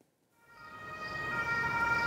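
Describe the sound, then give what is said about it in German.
Ambulance siren as the vehicle pulls up to a hospital emergency department in Sömmerda, a steady high tone rising out of near silence to moderate loudness over about two seconds, with no voices. “Es ist der dritte Rettungswagen in 30 Minuten, der vor die Notaufnahme des Krankenhauses in Sömmerda fährt.”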